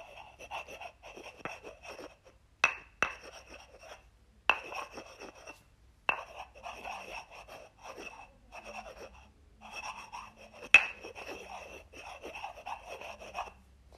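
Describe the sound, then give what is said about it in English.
Handwriting scratches across paper in short, soft bursts of rasping strokes, broken by pauses and a few crisp taps, all quiet and without talk. “Now, I'm just gonna write that down.”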